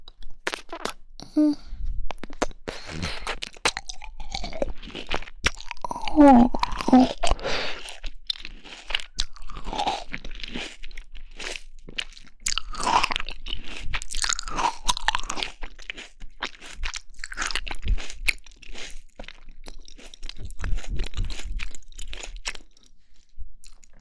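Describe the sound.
Crisp crunching and chewing of fruit, with many wet bites and crunches following one another for about twenty-four seconds. No one speaks.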